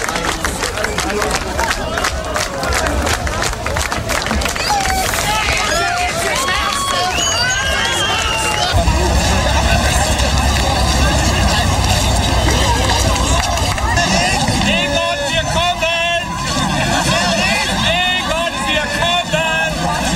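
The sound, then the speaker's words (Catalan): Crowd ambience in Berlin on 9 November as the Berlin Wall fell: dense, loud babble of many voices with bursts of cheering, steady throughout. “Era el so de l'ambient del 9 de novembre a Berlín, que veia com queia el mur de Berlín”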